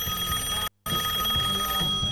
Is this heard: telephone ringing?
yes